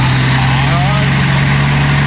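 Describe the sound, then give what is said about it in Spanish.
A Dina truck engine runs with a steady, unbroken low drone and a strong hum throughout, holding an even loudness with no revving or change in pitch. “Este tiene un motor de Thornton. Tiene un motor de camión Dina.”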